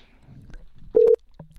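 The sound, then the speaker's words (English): A single short telephone touch-tone beep sounds while someone calls a toy order line. It stands out clearly against faint low rumbles and scattered clicks. “We're calling the Battle Vision order line for just water.”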